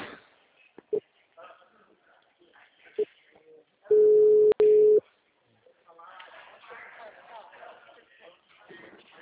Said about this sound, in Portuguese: a ligação caiu